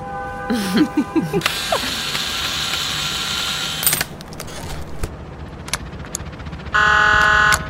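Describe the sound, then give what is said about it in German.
Ratcheting clicks from a screwdriver working on a maintenance panel, mixed with mechanical clatter and a few electronic tones, ending in a loud, sustained buzzing burst. “Ich muss an das Wartungspanel ran. Hast du einen Schraubenzieher? Hier.”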